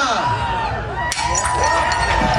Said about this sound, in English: Mayor Chow joined in on the Greek tradition last night and smashed a plate